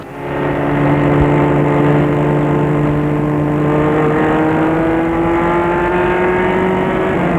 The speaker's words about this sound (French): Il entre dans la voiture et démarre.